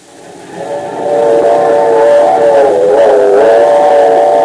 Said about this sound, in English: When the railroad gave us permission to ride the locomotive of the super steamer, I was delirious with joy.